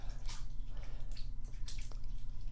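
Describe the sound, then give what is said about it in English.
Water dripping and splashing while someone's hair is washed: a few soft, irregular splashes over a low, steady hum, all fairly faint. “I know this is your favorite. I love washing your hair. Your hair is so pretty.”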